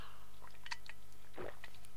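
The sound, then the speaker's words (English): A brief, soft slurp of coffee from a plastic camera-lens-shaped mug with an aluminium insert: a faint wet mouth sound near the middle, set against quiet background hiss. “Excuse me while I take a slurp of coffee from my cliche of a mug, which is one of those plastic camera lens mugs with an aluminium insert”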